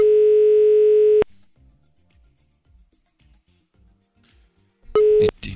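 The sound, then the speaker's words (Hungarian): Telephone dial tone during a radio call-in to a listener: a steady tone holds for about a second, then near-silence with faint low sounds, before the tone returns briefly with a loud burst. “Hívjuk a naphallgatóját? Legyen így.”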